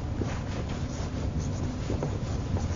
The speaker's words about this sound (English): I'm going to put the word on here. I'll write the word natural,